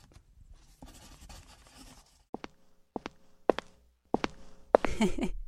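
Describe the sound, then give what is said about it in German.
A pen scratches across paper as an autograph is signed: a soft scribble first, then a series of sharp taps and strokes, ending in louder rustling. “Kann ich ein Autogramm haben für meine Tochter?”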